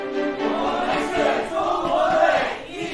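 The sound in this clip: Crowd cheering as guests and participants shout encouragement at the opening of a Beijing fan venue supporting China's Olympic team; loud, continuous massed voices chant and swell in waves throughout.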